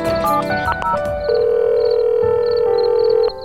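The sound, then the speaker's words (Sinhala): A landline telephone call is being placed: a run of short electronic dialing tones, then a long steady tone that holds for about two seconds before cutting off abruptly. “මේ වෙලාවෙත් දහර land phone එක අරගෙන මිනෝලිට call කළා.”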